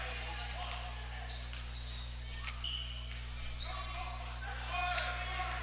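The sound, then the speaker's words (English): A basketball is dribbled on the court during a boys' high school game, with a few bouncing thuds over a steady low hum and indistinct voices. “Watt's got the dribble for the Lions, gets it to the right, that's Vaught”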